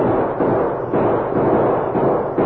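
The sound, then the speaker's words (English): Gunshots are fired from the woods in a radio drama. Several dull, booming shots come in quick succession over a rushing background noise. “Hey, you're right. Those shots are coming from the woods.”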